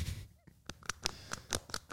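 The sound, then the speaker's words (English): A sticker being peeled off by hand for ASMR gives a series of short, sharp crackling snaps, many quick bursts of rising and falling loudness with faint hiss between them. “I'm doing ASMR. Taking off the sticker.”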